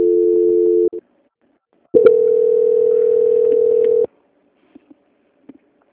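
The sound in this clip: Telephone line tones sound while a call is being transferred: a steady tone lasts about a second, then a second sustained, unwavering tone plays for roughly two seconds. A few faint clicks follow, and no one speaks.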